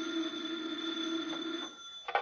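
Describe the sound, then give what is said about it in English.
A telephone rings on a desk at an FBI field office, a steady, bright trilling tone that cuts off, followed by a short knock. “A short while later, at a nearby FBI field office, Special Agent Jim Taylor is at his desk when the phone rings.”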